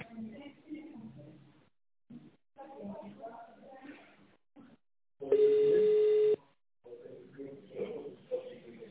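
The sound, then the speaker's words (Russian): Telephone line tone on a company's automated phone line: one steady, fairly loud beep lasting about a second. It sits between recorded voice prompts, which are heard before and after it. “Please dial the extension number. Wait for the operator.”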